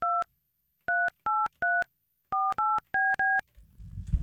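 A telephone number is dialed as eight touch-tone beeps in an uneven rhythm, with clear pauses between groups of keys, followed by a burst of low rumbling line noise.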